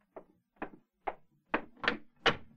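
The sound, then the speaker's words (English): Door sounds at the entrance of a trim white homestead: six hollow, evenly spaced thuds about half a second apart, the last three louder and fuller, with no voices. “It was Miss Abby who opened the door of the trim white homestead in which the sisters lived on that fateful morning in the year 1873.”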